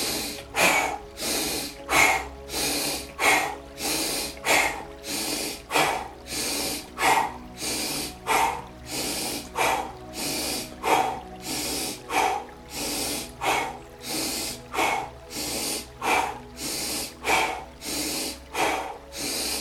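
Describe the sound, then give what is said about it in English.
Deep nasal inhales and forced mouth exhales during an energising breathwork practice, repeating many times in a steady, even rhythm. Each breath is a loud, breathy rush, with no talking over it. “Inhale deeply through the nose. And a forced exhale through the mouth. Push it out.”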